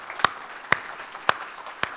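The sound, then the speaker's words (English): Four sharp hand claps ring out at evenly spaced intervals as a church audience gives a welcome, each crisp clap standing alone against a quiet background. “Let's give him a nice Subi welcome.”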